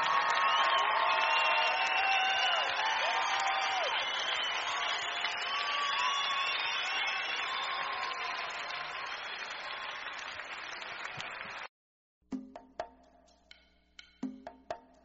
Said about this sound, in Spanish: Oh, dale al Señor un aplauso como Él merece.